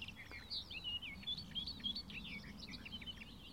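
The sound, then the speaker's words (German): A warbler sings a rapid, continuous stream of high, varied chirps and twittering phrases over a low, steady background rumble. “Und all diese Ablenkungen meiner Wahrnehmung lässt einfach diese Grasmücke vor mir singen und singen und singen.”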